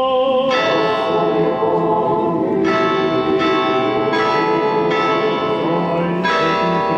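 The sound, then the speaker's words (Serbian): Church bells of the largest Orthodox church in Serbia ring loudly and continuously, with fresh strikes every second or so layering over a dense, sustained metallic hum as a prayer gathering begins. “Zvona iz najvećeg pravoslavnog hrama u Srbiji označila su početak molitve”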